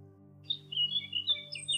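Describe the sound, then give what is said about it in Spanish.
Birds chirp in a quick series of short, high, faint tweets over a steady low hum. “escuchó a unos pájaros que decían:”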